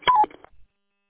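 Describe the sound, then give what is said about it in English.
A radio transmitter's roger beep at the end of a transmission over a repeater: a short electronic two-tone beep, a higher note stepping down to a lower one, followed by a few faint, brief blips. “were you letting me know I need to turn off my Roger beep, sir?”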